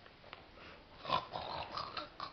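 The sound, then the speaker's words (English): Pigs snort and grunt in a video game, a few short rough bursts rising out of a faint, noisy background. “Look, the pigs!”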